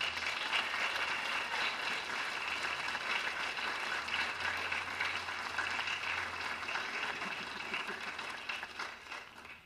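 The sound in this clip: Audience applause welcoming a clarinet performer, a sustained and even burst of many hands clapping that holds for about nine seconds before tapering off at the end.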